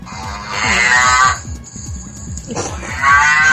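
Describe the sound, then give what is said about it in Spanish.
A cow moos twice in long, drawn-out calls, the first lasting about a second and the second starting after a short pause. Both are loud and steady, with no voices. “Mío y ahorita por acá ando buscando a la vaca. Es que se pierde a veces. Ok. Ya anda por aquí”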